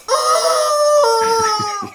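A rooster crows once as a sound effect: a loud, strained, nasal cock-a-doodle-doo. It holds steady, then breaks into a few choppy pulses before fading out.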